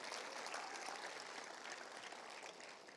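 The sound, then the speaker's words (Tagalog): Applause from a church audience, a dense, unbroken patter of many hands clapping, fairly faint and steady throughout, fading slightly at the close. “Palakpakan mo si Lord!”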